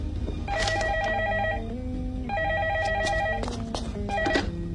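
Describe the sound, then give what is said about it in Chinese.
A telephone ringing during a staged comic sketch: two long, bright electronic ringing bursts over a steady low hum, followed by a jumble of other sounds. “喂，哦，说曹操，曹操来电话啦。”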